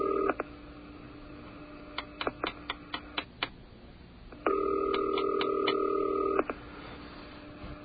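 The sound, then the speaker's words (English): Telephone dialing tones: a brief tone, then a quick series of sharp clicks, then a steady tone broken by a rapid run of beeps. No voices are heard. “Dialing for Nichols.”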